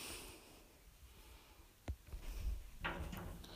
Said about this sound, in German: Ich bin jetzt mal gegen meinen Schrank gestoßen, aus Metall, der hier ganz in der Nähe steht.